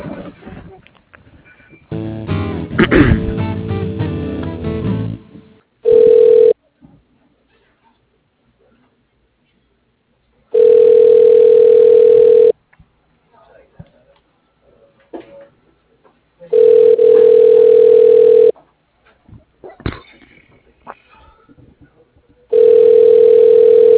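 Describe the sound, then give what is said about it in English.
Ringback tones of a telephone call being transferred to voicemail: a steady mid-pitched tone repeats in a few long, evenly spaced bursts with quiet gaps between them, after a short stretch of handling noise at the start. “I can put you through to a voicemail for Mike”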